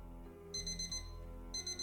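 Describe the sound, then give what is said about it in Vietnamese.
A mobile phone alarm clock rings with two bursts of rapid, high-pitched electronic beeping, each about half a second long, over a steady low background drone. “12 giờ đêm, tiếng chuông báo thức từ điện thoại vang lên đánh thức Giang.”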